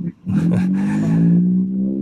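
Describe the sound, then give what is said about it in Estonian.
A rally zero car's engine accelerates past on a stage, a loud sustained revving drone that rises slightly in pitch over about two seconds. “Aga jah, see oli nüüd ühe nulliga auto”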